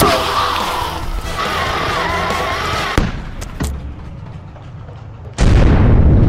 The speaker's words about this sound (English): Prepare to be annihilated. Shield beacon. Loading long-range missile.